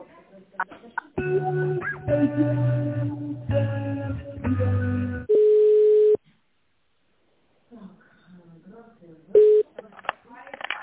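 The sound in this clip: Telephone line tones as a call is transferred to an accountant and put on hold: blocks of harmonic electronic tones, then a sustained steady beep, a silence, and another short beep, with brief talk near the end.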